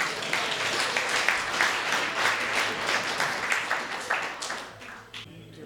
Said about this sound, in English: Put your hands together for the lady in the blue hat.